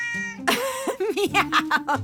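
A person imitates a cat, voicing one long meow followed by a quick run of shorter, higher meows, loud and alone.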